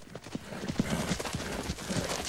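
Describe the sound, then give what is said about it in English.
Hooves of a black mustang pound as it runs around and around a corral, a rapid, irregular clip-clop of thuds that continues steadily throughout. “The black Mustang races round and round the corral.”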